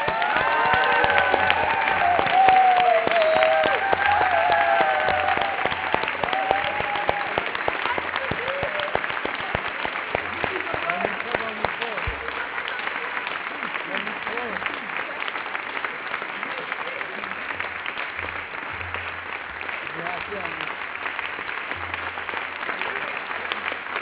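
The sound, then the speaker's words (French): A big ovation for an honoree at a gift-giving celebration: dense, sustained applause from a crowd that continues without a break, thinning slightly over time, with faint voices beneath it. “Mais avant tout, une grande ovation s'impose.”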